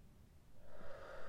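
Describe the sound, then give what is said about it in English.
A deep breath drawn in, a soft, airy intake that swells after a quiet start and stays faint, heard alone. “Breathe in.”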